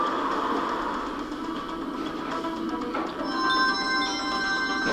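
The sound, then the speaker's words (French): A transport capsule travels into the clinic's station with a rumbling, rail-like roar that is broad and steady and dips slightly midway. Thin, high whining tones join near the end. “La capsule de Nathan va le déposer dans la gare de la clinique.”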